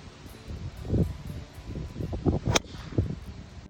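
Golf club striking a golf ball during a round of golf: a single sharp crack partway through, over faint rustling background noise.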